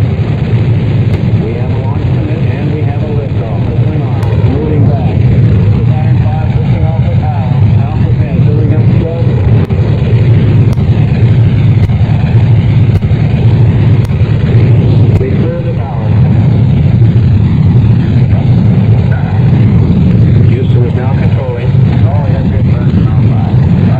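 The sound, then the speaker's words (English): Heavy roaring rumble of a rocket launch at ignition, building to 7.7 million pounds of thrust for a crewed moon landing mission. The dense, loud low roar continues without a break, with one brief dip partway through. “We have ignition sequence start. Now building up to 7.7 million pounds of thrust.”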